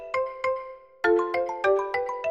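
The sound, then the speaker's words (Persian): A mobile phone ringtone rings at home in the evening: bright, bell-like electronic notes, two spaced tones and then a quicker repeating run of chiming notes, with no talk. “یهو موبایلم زنگ خورد.”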